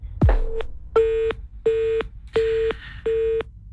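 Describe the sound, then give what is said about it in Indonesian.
A disconnected telephone line: a low thump, then a series of evenly spaced beeps at a steady pitch, each lasting under half a second. “teleponnya terputus dari Ustadz Lutfi”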